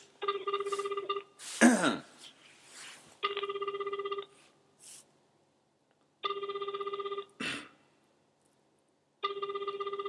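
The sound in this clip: Phone call ringing through a speakerphone: four buzzing rings in a regular repeating pattern, separated by pauses, with brief scuffling noises in between.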